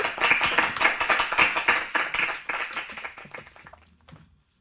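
Hands clapping: many quick, sharp claps in a steady rhythm that gradually soften and trail off into silence at the end.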